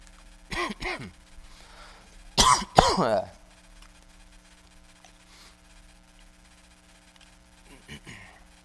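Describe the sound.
Coughing and throat clearing from a tickle in the throat: a couple of short coughs, then a louder cluster of coughs and throat clearing, and a faint one near the end, over a low steady hum.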